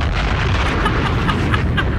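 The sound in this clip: A bomb explosion sound effect: a loud, deep, sustained booming rumble that holds steady for about two seconds without separate distinct blasts.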